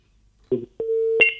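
Telephone tones after a phone call is cut off: a short burst, then a steady low electronic tone that switches to a higher, brighter tone at the end.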